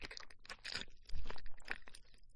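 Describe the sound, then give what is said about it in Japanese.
Mushrooms being chewed, with soft, moist crunching and squelching bites in an irregular rhythm. The sound stays quiet throughout and no one talks. “もちもち感がありますね。じゃあ私キノコ食べますね。”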